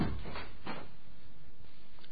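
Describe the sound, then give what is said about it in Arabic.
A door shuts with a few muffled knocks and clatter, fairly loud against a dull background rumble, with no voices. “طب اقفل الباب وراك.”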